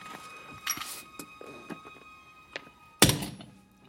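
A small, unloaded cast-iron bomb about the size of a hand grenade is thrown and lands. A few light knocks lead up to one loud, sharp thunk near the end, which trails off into quiet.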